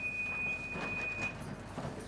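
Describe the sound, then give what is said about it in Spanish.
Metro train running through a tunnel toward the city centre before dawn, carrying about 200 parcels: a quiet, continuous low rumble with a thin high whine that fades after the first second. “El metro se dirige al centro de la ciudad transportando unos 200 paquetes.”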